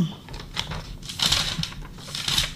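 Soft paper rustling as a sheet from a physician's consultation is handed over, a few brief crinkling bursts with low background noise.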